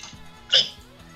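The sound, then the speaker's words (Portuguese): A single short hiccup, a sharp bright burst from the throat that quickly fades over a faint, quiet background. “Esse foi um soluço.”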